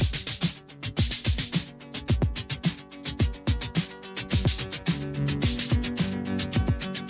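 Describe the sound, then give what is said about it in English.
Electronic music built from a Moog rhythm track and a Moog music track synchronized together, with a steady beat of sharp percussive hits over sustained synthesizer tones and layered melodic lines that continue throughout. “Okay, we built a pretty nice piece of music here using a Moog rhythm track and a Moog music track.”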